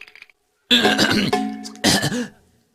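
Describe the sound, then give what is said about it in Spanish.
Throat clearing, two rough, loud bursts separated by a brief pause, preceded by a few faint sounds. “Solo me aclaraba la garganta.”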